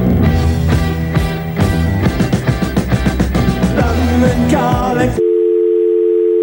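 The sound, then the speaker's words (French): A steady British telephone line tone with nobody answering: a single continuous mid-pitched hum that sounds alone for about a second after a stretch of loud music cuts off. “Allô ? Allô, allô ? Non, ça ne répond plus. Bon, en même temps, en Angleterre, en vrai, quand tu appelais ou quand on t'appelait, ça faisait ça.”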